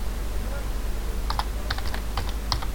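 Typing a chat message on a computer keyboard: a few scattered, light key clicks in loose bursts over a steady low hum.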